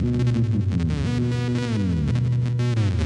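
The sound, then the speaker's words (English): Droning, throbbing modular synth tone from a Bang module with a Make Noise Function patched into its FM input, buzzy stacked harmonics stepping and gliding in pitch, steady and moderately loud throughout. “And then I've got the function from Make Noise going into the FM input. Now let's go to the positive side of that.”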